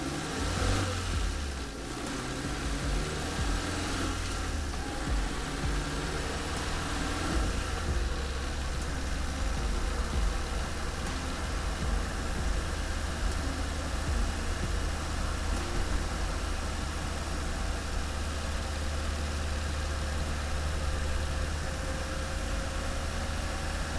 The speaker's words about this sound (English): Let's see a few movements that a tugboat can perform.